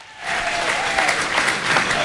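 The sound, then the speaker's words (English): A crowd gives a round of applause for a man introduced on stage, dense even clapping rising quickly after a short lull and holding steady and loud to the end. “Andy Moran, ladies and gentlemen, give me a huge round of applause”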